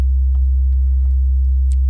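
Low sub-bass sine wave tone, the kind a subwoofer reproduces, holding one steady deep pitch throughout with only faint scattered clicks above it.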